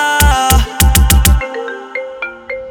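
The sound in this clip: A phone ringtone for an incoming call plays bright, melodic tones: six loud rhythmic notes with a heavy low end, followed by softer, separate chiming notes that fade out.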